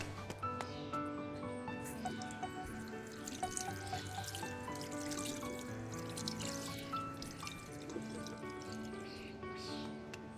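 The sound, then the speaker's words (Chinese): Running water from a tap as someone washes oily hands at a sink: a steady, unbroken wash of splashing and trickling that stays at an even level throughout, with no talking. “身上都是油，别往我身上抹。 我洗手。”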